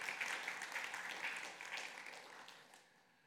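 Applause from a church audience welcoming a visitor during a service, steady dense clapping that holds for about three seconds and then thins and fades toward the end.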